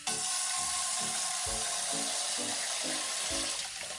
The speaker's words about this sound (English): Look. The mother is washing the plates.